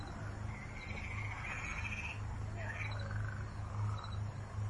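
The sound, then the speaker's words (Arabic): Frogs croak in a faint, steady low chorus, mixed with scattered high chirps and insect-like trills. “بس ده مش صوت ضفادع بس، يعني الصوت ده مش ضفادع بس. سامعين؟ ده صوت ضفادع بس.”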